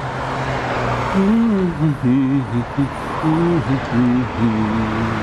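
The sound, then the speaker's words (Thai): A car engine drones steadily in a staged radio-drama scene of a driver running a red light, with agitated voices speaking over the low hum. “นี่คุณขับรถฝ่าไฟแดงมาได้ยังไงอะฮะ”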